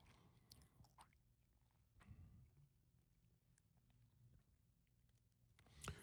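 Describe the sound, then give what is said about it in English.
Chewing on a peanut butter cookie, a few soft crunchy bites and squishy mouth sounds at a moderate level, with a sharper burst near the end. “This peanut butter cookie is so fire.”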